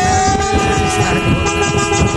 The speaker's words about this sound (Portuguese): é taxista, é todo tipo de gente buzinando